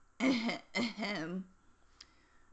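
A person clears their throat in two rough, voiced bursts in quick succession, the second longer and trailing off, then quiet.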